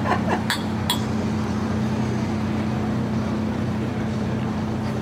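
Glasses clinking in a toast: a few sharp, bright clinks in the first second, then a steady low hum that continues on its own.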